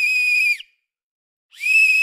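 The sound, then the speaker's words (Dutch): A referee's whistle sounds in two loud, shrill, steady high-pitched blasts, separated by about a second of silence. “Maar laten we het fluitje nu laten klinken.”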